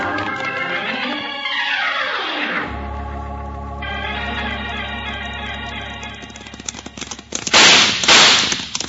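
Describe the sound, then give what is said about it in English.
A couple of sharp, loud gunshots burst out near the end, fired during a chase in an old western drama. Before them comes a long stretch of sustained humming sound, with no voices. “He's shooting at us”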